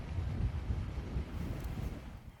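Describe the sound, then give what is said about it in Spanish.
Strong wind blowing at a wildfire near Almorox, Toledo: a faint, low buffeting rumble with fluctuating gusts that continues throughout. “Y lo que más preocupa es lo que podéis ver en imagen, es el fuerte viento que sopla.”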